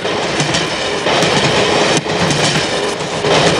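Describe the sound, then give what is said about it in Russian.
A train runs fast along rails and over switches as it changes tracks, a loud, steady rolling roar marked by occasional sharp clacks from the wheels, with no voices. “Стремительно под колеса несутся рельсы. Переключаются стрелки, состав переходит с одного пути на другой.”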